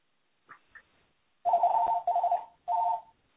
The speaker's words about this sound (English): Sorry for my phone ringing in the background. Okay, any questions? I'll keep it open while my phone continues to ring.